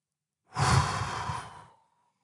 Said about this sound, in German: halte die Luft an, zähle bis 5. Und atme laut aus.